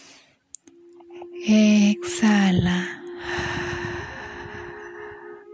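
A deep inhale taken during a guided breathing exercise, heard as a soft airy rush alongside sustained, humming tones that swell loudly twice before settling into a quieter, steady wash.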